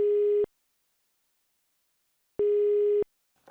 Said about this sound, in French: Nous allons appeler un numéro en France.